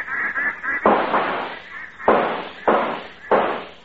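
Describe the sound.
Shotgun blasts fired at a flight of ducks on a lake: four loud booms, each trailing into a long decay, after brief honking bird calls at the start.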